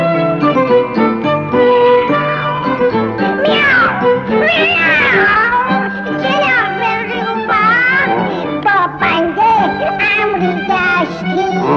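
Repeated cat-like meows, voiced in a playful children's song style, sound over busy, bright music with singing, rising and wavering in pitch across the passage.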